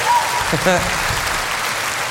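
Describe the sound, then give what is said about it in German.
Audience applause welcoming a guest, a steady, even wash of clapping across the whole clip with a brief voice rising over it early on. “einen Applaus für Franz Schumacher, mein Freund”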